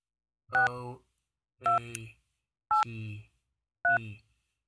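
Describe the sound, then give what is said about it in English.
Touch-tone telephone dialing: four short keypad tones, each a bright dual-pitched beep with a buzzing tail, evenly spaced about a second apart with silence between them. “Are you dialing? Yeah, 2-6.”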